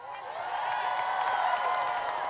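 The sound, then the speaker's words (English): Audience applause and cheering at a holiday concert: a dense, steady wash of clapping and crowd noise that holds at an even level throughout. “Can everybody please give one more big round of applause for this amazing collection of talent?”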